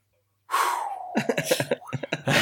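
A sharp intake of breath, a loud rushing gasp, followed by a quick run of short, choppy breathy bursts.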